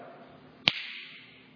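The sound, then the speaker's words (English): Single sharp finger snap, a bright, dry click that rises abruptly above a quiet low hum and fades within a fraction of a second. “You'd be able to say, he snapped his fingers.”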